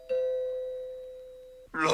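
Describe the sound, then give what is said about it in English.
A doorbell gives a single ringing chime, a clear sustained tone that slowly fades for about a second and a half, and then a voice starts speaking as it ends. “Doorbell. Me see who it is.”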